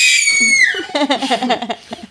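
A person screams without panic, starting with a high, sustained cry that slides downward in pitch. Choppy, rhythmic vocal bursts follow.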